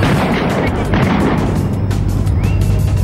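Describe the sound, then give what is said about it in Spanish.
Tear gas canisters fired by police at a violent street protest, heard as a few dull bangs and pops over a loud, continuous roar of crowd and street noise. “Continúa disparando gases.”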